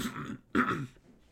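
A cough from someone who is sick comes as two rough, throaty bursts, the second louder and sharper than the first, then trails off quietly.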